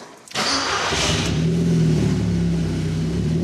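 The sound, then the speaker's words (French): An Audi TT engine cranks and fires up during a power test, then holds a loud, steady, mid-pitched running drone with a brief swell of revs. “Alors voyons ce que développe l'Audi TT de notre ami.”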